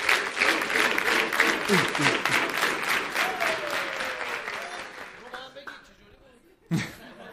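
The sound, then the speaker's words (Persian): Audience applause, dense clapping with some laughter mixed in for about five seconds, then fading away before a short burst of voice near the end. “مرسی، تشویقش کنید.”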